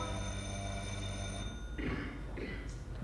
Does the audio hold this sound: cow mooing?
no